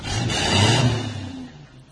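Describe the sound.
A car engine starts with a rumbling, revving burst that swells to a peak and then gradually fades over a couple of seconds.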